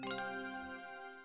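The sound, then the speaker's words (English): A short, quiet chiming jingle for listener mail: a couple of quick bright tinkling strikes followed by ringing tones that fade within about a second. “That's the sound of listener mail.”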